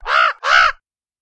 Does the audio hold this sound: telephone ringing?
no